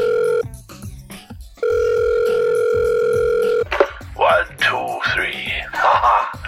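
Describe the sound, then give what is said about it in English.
A telephone dial tone on a call to Santa Claus sounds as a steady, even hum, cuts out briefly, then returns for about two seconds before a voice takes over. “it's time to give old Santa Claus a call today. Okay, Santa, where are you?”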